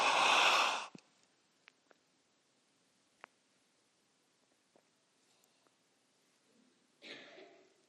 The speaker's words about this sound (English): What I want you to do is I want you to take a deep breath with me and hold it. Ready? One, two, three.